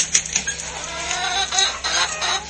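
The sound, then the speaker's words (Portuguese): Hens clucking in a farmyard, a few short, bright calls and clucks at irregular intervals over a low, steady background, with no talk. “Ah, aqui estão as galinhas.”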